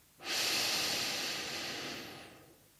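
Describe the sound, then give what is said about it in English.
One slow, long breath taken close to the microphone during a counted meditation exercise. A soft, airy hiss swells quickly, then fades gradually over about two seconds, with no talk. “this is one of those times where I don't mind my mic picking up my breath.”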